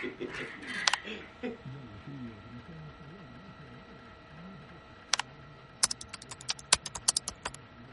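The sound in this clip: Someone types an email on a computer keyboard, a quick run of sharp, irregular key clicks in the final few seconds, after a stretch of quiet voices talking.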